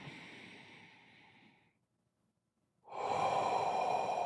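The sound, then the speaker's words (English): Breath drawn in through the nose during a guided relaxation exercise: a soft, fading airy breath, a short silence, then a loud, steady nasal intake that carries on to the end. “You can breathe in through the nose.”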